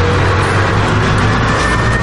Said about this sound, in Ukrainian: Ну, як на мене, просто відчуття, що ти керуєш вантажівкою. Так, чистокровна італійка БТР «Пума» показує себе на українському фронті.